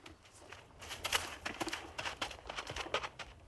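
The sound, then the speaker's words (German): Hoofbeats of a horse ridden slowly away: many soft, irregular clops and scuffs, fairly faint, over a low background hiss. “Der Baron wandte sein Pferd, zog die Zügel an und ritt langsam davon.”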